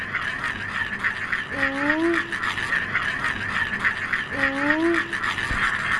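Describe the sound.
A traditional Thai 'cicada' toy is spun and whirs, a steady raspy buzzing drone with two short tonal chirps that glide slightly upward in pitch, with no talk.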